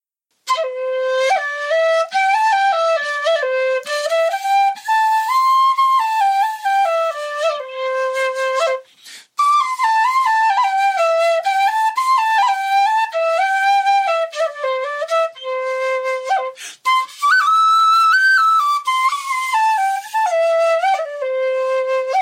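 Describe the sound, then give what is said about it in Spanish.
A flute with a Chinese-style tone plays a solo melody of sustained, gliding notes that rise and fall, loud and clear, with one short pause partway through. “Esta es una flauta con sonido chino que yo llamo mi flauta china.”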